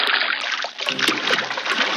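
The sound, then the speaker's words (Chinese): Water sloshing and splashing as a salted beef lung is rinsed and rubbed hard by hand in clean water, a steady wet churning that runs through the whole clip. “搓过盐的牛肺用清水冲洗后，还要在热水中焯洗，然后再在清水中像洗衣服那样使劲揉搓，将血管中的血水全部挤出来。”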